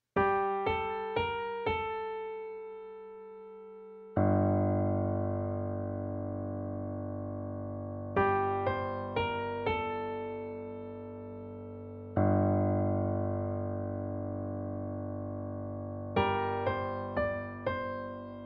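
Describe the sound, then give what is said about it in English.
Music built on a pedal point: a sustained low note holds steady underneath while quick bright plucked figures and long swelling chords alternate above it in repeating sections. “What a pedal point is a fixed note at the bottom of the harmony that holds the center of pitch, no matter what kind of chords are being played on top of it”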